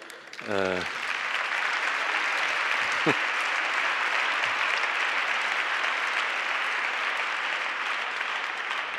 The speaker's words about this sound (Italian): un applauso a mio padre e mia madre